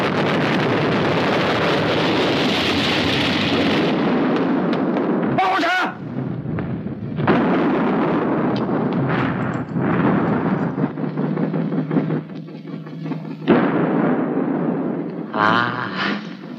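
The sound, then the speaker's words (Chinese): Artillery fire from quick-firing guns aimed at sinking an enemy ship: a heavy, continuous roaring rumble broken by several sharp, loud bursts, with wind-like noise throughout. “司令长官，是不是停止射击啊？ 不，用快炮射击， 打沉他。”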